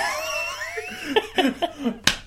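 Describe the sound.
A knee slap lands as one sharp, bright smack near the end, after a wavering vocal sound and a few softer taps and thumps.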